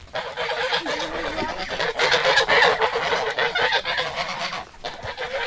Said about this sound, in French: au cas où vous auriez pas reconnu, on vient de croiser un troupeau d'oies. Ils nous ont pas attaqué, ça va.